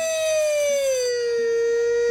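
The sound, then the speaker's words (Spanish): A siren wails in a single loud, sustained tone that slides gradually lower in pitch over about two seconds, with a faint low hum beneath it. “¡Una sirena! ¡Alarma!”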